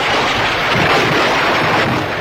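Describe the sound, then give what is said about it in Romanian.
A thunderstorm sound effect with wind gives a loud, steady, broad rushing roar that holds constant throughout, with no distinct thunderclap standing out and no voices. “Fulgere, vijelie și alte trezneli meteoradiofonice Romeo Chelaru.”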